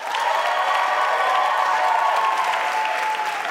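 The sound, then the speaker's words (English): Audience applauding and cheering for a contestant at a live contest, with dense, loud, steady clapping that holds without a break and scattered cheers mixed in. “Okay, so make some noise, please, first for Che Rhymefest Smith.”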